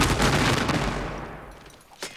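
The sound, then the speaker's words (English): A rifle volley fired by a company of soldiers: a loud, dense burst of gunfire that rings out and slowly fades, followed by a single sharper crack near the end. “Attention, company! Ready? Aim! Fire!”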